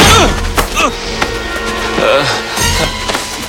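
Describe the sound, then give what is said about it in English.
Punch sound effects from a fist fight: several sharp, loud, wooden-sounding whacks and thuds land in quick succession, each ending in a brief crackle. “Ed arrives and slugs Jeff.”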